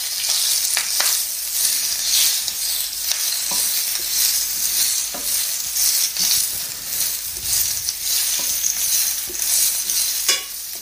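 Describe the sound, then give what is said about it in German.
Sizzling of pak choi frying in hot oil, a dense, steady crackle that runs through the whole clip, with a few sharper stirring scrapes and clicks standing out and no talking. “Dann schmeißen wir jetzt den Pak Choi dazu.”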